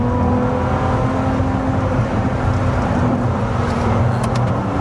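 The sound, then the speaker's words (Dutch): Ferrari 296 Speciale sports car engine holding a loud, steady drone with a constant pitch and a rough, buzzy texture throughout, with no talking. “En hij klinkt echt waanzinnig. Ja, de Ferrari 296 speciale, dit doen ze gewoon wel echt heel zinnig.”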